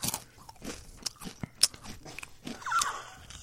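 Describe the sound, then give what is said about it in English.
A whole Dorito chip bitten into with a sharp, loud crunch, followed by several more crisp crunches and wet chewing in an uneven rhythm, with no talking. “We want you to eat a whole chip, a whole Dorito. A whole one? And you have to guess what the flavor is. And tell us exactly how you feel as you bite into it and taste it.”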